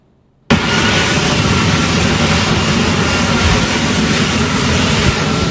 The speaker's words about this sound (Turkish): Beyaz Saray'a sadece birkaç kilometre mesafede görüntülenen F-35 savaş uçağı uzun süre aynı noktada alçak irtifada manevra yaptı.